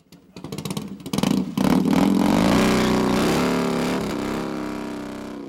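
A motorcycle engine revs, opening with a few sharp clattering bursts before swelling into a loud, sustained roar whose pitch climbs and then slowly eases off.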